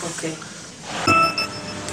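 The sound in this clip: Glasses clink in a toast, a bright ringing chime rising briefly over people talking.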